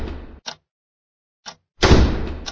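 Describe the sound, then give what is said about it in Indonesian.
Heavy banging on a door late at night, forceful enough to make the door shake. A few dull thuds: one at the start, two short knocks after gaps, then a long, loud, booming burst of pounding at the end. “Saya melihat pintu tuh bergetar. Saking kerasnya itu gedoran.”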